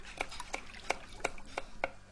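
Vegetables are chopped with a knife on a cutting board: six crisp, evenly spaced strikes in a steady rhythm, fairly quiet.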